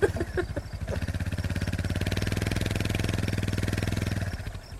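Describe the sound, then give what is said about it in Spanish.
An old motorcycle engine runs with a loud, steady, rhythmic chugging that holds evenly for several seconds before tapering off at the end. “¿qué carajo es ese bullicio? Es una moto como del tiempo de Cristóbal Colón.”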